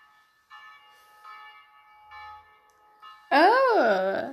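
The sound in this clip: Church bells ring from a nearby basilica, a few sustained tones of moderate loudness that are followed by a louder, wavering sound near the end.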